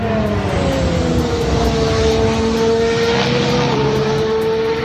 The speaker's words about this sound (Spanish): Y en los deportes, así suena el nuevo motor Honda de Fernando Alonso